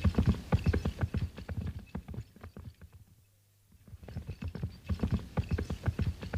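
A horse's hooves clip-clop as it pulls a sleigh through fresh snow at night, in a quick, steady rhythm of many beats. The hoofbeats fade out in the middle over a low hum, then return just as briskly.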